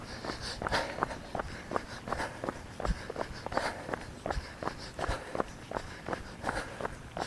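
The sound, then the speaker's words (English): Running footsteps of a man striding briskly, many evenly spaced, light impacts in a quick, steady rhythm, fairly faint and with no voices. “I'm running a bit too spryly, but oh well, who cares?”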